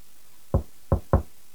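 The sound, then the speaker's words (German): Gentle knocking on a refrigerator door: three soft, dull raps, the last two closer together, with quiet pauses between them. “Herr Burczyk lief zum Kühlschrank. Er legte das Ohr an die Tür, klopfte sacht an und flüsterte: Hallo!”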